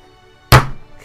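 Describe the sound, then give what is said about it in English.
A forehead hitting a table makes one loud, dull thunk, a single sharp impact with a brief decay, alone. “That's the sound of my forehead hitting the table.”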